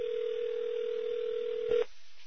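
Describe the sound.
A steady telephone calling tone sounds while phoning someone: one continuous mid-pitched beep lasting under two seconds, ending in a sharp click, then faint line hiss.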